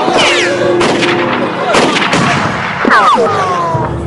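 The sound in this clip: A firing squad's gunfire in a dramatic scene: a few sharp, loud shots ring out over a busy background threaded with whistling tones.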